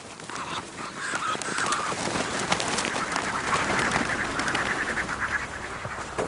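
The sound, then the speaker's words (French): Farm ducks being raised for duck breast flap their wings, producing a dense, continuous fluttering and rustling noise that stays fairly even in level throughout. “J'adore ce bruit d'ailes. C'est les magrets qui sont en train de se développer.”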